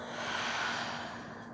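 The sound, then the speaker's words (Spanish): Deep exhalation through the mouth during a guided breathing exercise: one long, breathy rush of air that swells and then slowly fades. “Toma una inhalación profunda, llenando tus pulmones hasta el fondo y por tu boca exhala soltando todo, todo el aire.”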